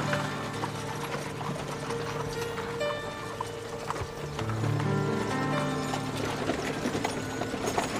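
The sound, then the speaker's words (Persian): Horse hooves clip-clop as a horse-drawn carriage moves along at a steady, even pace, the sharp beats fairly quiet beneath a busy background of other sounds. “نقره سوار کالسکه ای دیگه میشه.”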